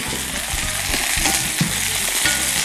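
Onions frying in a pan, browned until golden-black, give a steady loud sizzle with scattered crackles and pops throughout. No one speaks.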